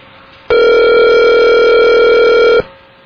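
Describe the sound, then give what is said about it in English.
Telephone ringback tone as a call rings through before reaching voicemail: a single steady, loud electronic ring lasting about two seconds, starting and stopping abruptly, with no talk. “You reached the voicemail of Joy Garnett. Please leave a message and I'll try and get back to you.”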